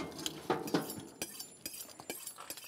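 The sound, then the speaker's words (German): A plate is moved during lamb preparation, giving a few faint, light clinks and soft knocks of crockery in quick, irregular succession. “Genau, ich bewege mal den Teller.”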